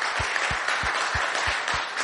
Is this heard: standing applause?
yes